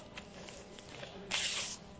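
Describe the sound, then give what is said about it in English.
A voice imitates a $20 bill and a $10 bill being torn up, making one short, hissing rasp that stands out against faint background noise. “she took a $20 bill and a $10 bill, and she just was tearing it up like this.”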